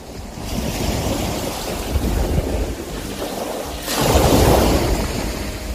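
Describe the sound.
Sea waves washing onto the shore: continuous loud rushing surf mixed with wind noise, swelling and easing, with a stronger surge toward the end.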